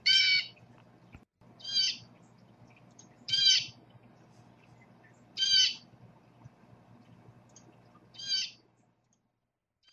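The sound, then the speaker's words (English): A blue jay gives five loud, harsh, raspy calls, its common call, spaced irregularly a couple of seconds apart over a faint low hum. “That's the common call of the blue jay”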